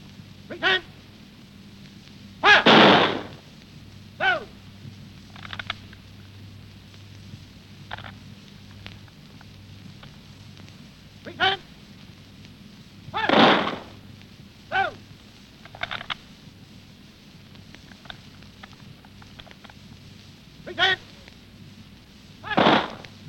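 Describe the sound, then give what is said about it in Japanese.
A ceremonial firing party with bayonets fixed fires rifle volleys of blank rounds into the sky as a salute to the dead. Sharp, fairly faint cracks come at irregular intervals, with a few broader, louder volleys among them. “発射隊は空に向かって空砲を発射して死者に最高の礼を捧げています”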